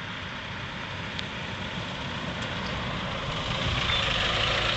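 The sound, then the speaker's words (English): A boxy mail delivery truck with a white aluminum body and blue and red stripes idles with a steady, low engine rumble and broad hiss. The sound is continuous and even for nearly five seconds, growing slightly louder toward the end. “I'm talking about the blue and red boxy vehicles driving down the street, delivering your mails and packages on a regular basis”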